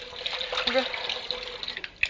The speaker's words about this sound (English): Let's run some water.